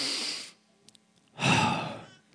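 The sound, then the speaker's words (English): A deep human breath taken close to a microphone: two loud, airy rushes of breath separated by a quiet pause, with no talking. “Will you take a deep breath with me real quick? You can hear it in this microphone because it's the hottest microphone in the world. Okay, let it out.”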